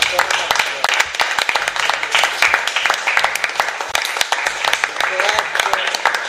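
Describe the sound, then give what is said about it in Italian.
Applause from a group, with brisk, crowded clapping sustained throughout and voices talking over the clapping. “un applauso”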